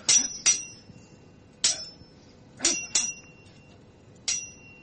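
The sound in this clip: Metallic sword clangs from a game sound effect: six bright, ringing strikes at uneven intervals, each with a short shimmering tail fading into a faint hiss.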